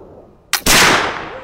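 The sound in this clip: Flintlock muzzleloader rifle firing a black powder charge: a brief sharp snap, then a moment later a loud heavy blast with a long, slowly fading rumbling tail.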